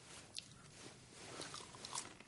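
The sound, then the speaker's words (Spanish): Crunching as someone bites into and chews potato chips in a car: a few faint, crisp snaps over soft, continuous chewing. “coge una patata frita y se la come.”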